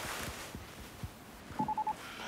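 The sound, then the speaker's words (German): A telephone signals an incoming call with four quick electronic beeps at one steady pitch, fairly faint, after a few soft knocks and rustles. “Du, ich muss mal kurz auflegen. Hannos Schule ruft an.”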